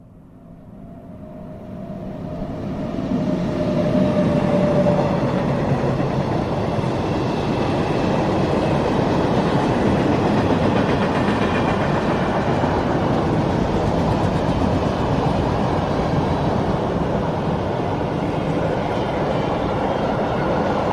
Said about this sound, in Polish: Słyszymy przejeżdżający pociąg towarowy, ale teraz wzdłuż torów zamontowano ekrany akustyczne.